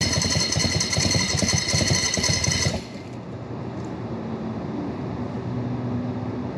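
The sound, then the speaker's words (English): A motorcycle engine runs in first gear as the rider's foot slips off the clutch pedal: a loud, steady, richly harmonic drone that drops abruptly after about three seconds, leaving a quieter low hum. “I'm sitting here with the bike in first gear, and my foot is gonna slip off the clutch pedal. Let's see how far I go.”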